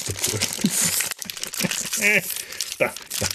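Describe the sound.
Tea packaging crinkled, crackled and pulled open by hand, with busy, uneven bursts of rustling and a few sharper tearing crackles throughout.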